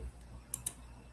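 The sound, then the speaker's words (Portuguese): Two quick, faint computer mouse clicks sound close together on a lagging computer, sharp and brief over a low steady hum. “Hoje está travando aqui o negócio. Estou clicando e não está passando.”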